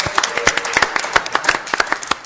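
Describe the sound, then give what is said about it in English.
Scattered applause from a studio audience at a live early-morning show: many separate claps form an irregular, sparse patter at moderate loudness, with no talk over it. “Give yourselves a round of applause for getting up early.”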